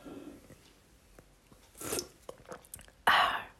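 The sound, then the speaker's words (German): Mouth sounds of someone drinking the last sip of a lemon soda: soft scattered noises, then a louder sipping burst partway through and a stronger slurp-like rush near the end. “Noch einen Schluck austrinken.”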